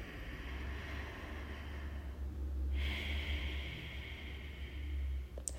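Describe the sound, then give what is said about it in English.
A deep breath in and out during a seated morning meditation, heard as two long, soft, airy rushes of breath, the second phase brighter than the first, with steady low background noise throughout. “start by taking a deep breath”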